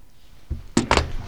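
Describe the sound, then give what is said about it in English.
A fridge door being shut: a soft low thump followed by two louder, sharp clunks in quick succession, with nothing else around them. “let's close the fridge door.”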